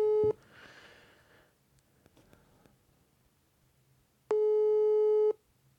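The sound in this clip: A telephone ringing tone sounds on the line: the tail of one buzzy, steady beep, a long near-silent gap, then a second full beep lasting about a second.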